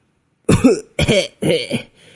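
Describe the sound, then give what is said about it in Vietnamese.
Three dry, harsh coughs from someone with a chest and lung injury, each a short rough burst separated by brief gaps, loud and alone with no talk. “Vừa ho khan vừa nói”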